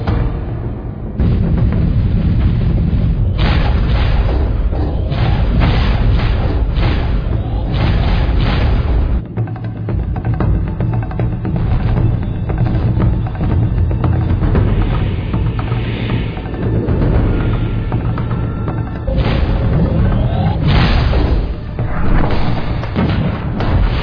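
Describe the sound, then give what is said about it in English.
Heavy booming gunfire from a spaceship's gun batteries laying down suppression fire against closing enemy fighters, a loud, dense barrage of repeated thuds and blasts over a constant low rumble that runs the whole length. “Enemy suppression fire. All batteries execute. All batteries commence firing.”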